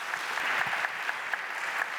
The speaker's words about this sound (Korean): 여러분 박범훈 총예술감독님을 뜨거운 박수로 모셔보겠습니다.